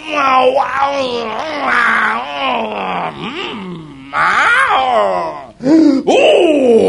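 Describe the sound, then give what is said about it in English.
A preacher demonstrates a prayerful groan: loud, wordless moaning in several long, wavering phrases. The pitch slides up and down, with brief breaks between the phrases. “that is the groanings that cannot be uttered. When something grips you, all you are doing is groaning and God is hearing.”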